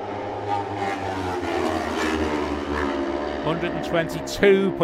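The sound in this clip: Racing motorcycles on Glen Crutchery Road during a road race: a sustained, loud engine wail under commentary, swelling into a sharp, louder burst as the bikes pass near the end.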